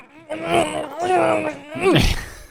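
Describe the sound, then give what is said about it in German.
Muffled groans from a gagged, tied-up man lying on the floor in a radio play scene, performed by a voice: three strained moaning bursts with wavering pitch, the last ending in a sharp breathy exhale. “da liegt einer geknebelt, gefesselt auf dem Boden. Der Jeff. So, und macht auch so eine Geräusch.”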